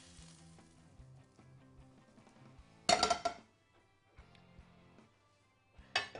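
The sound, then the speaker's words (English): Sausage goes into a hot pan over peppers and sizzles in two loud bursts, with quiet clinks of pan and utensils between them. “And what I'm going to start doing right now, I'm going to put this over our peppers here.”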